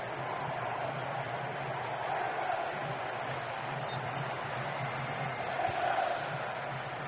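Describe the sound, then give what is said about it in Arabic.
English football fans cheering in a stadium in New Jersey during a match against Panama, a steady, dense roar of crowd noise that holds throughout with no clear breaks. “تشجيعات الجماهير الإنجليزية هنا في نيو جيرسي”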